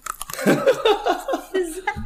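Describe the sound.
Crisp bites and chewing of a snack, with several crunchy bursts of varying loudness mixed with a voice and light chuckling.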